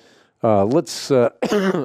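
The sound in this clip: Throat clearing and coughing from someone with a tumor-caused cough: a few loud, rough, voiced throat-clearing bursts with a short harsh cough between them, each separated by brief gaps.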